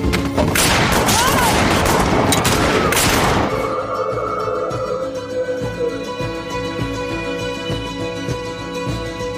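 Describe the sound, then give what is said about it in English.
Dense, rapid gunfire from miners shooting wildly at creatures attacking their cabin, a loud continuous barrage of overlapping shots for about three seconds that then gives way to a sustained low musical drone. “The creatures were everywhere. The miners fought back, firing anywhere and everywhere.”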